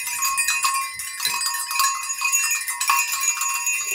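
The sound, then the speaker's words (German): Six small herd bells of different sizes jingle together in a dense, continuous shimmer. Many overlapping bright strikes ring out over sustained metallic tones, loud and steady, with no talk. “das sind wahrscheinlich die Glöckchen von einer kleinen Herde”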